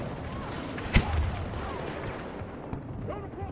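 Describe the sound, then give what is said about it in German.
A grenade explodes in a video game: one sharp, loud blast with a short low rumble after it, set against steady, busy game noise. “Ich bin auch genau darüber gegrappling hooked, als die Granate hochgegangen ist.”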